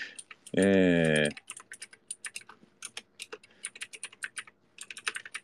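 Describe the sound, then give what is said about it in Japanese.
Fingers type a web search on a computer keyboard: many quick, irregular key clicks in bursts, with a brief held voiced tone early on. “Google でさ、バイス・シュバルツホロライブで検索したら”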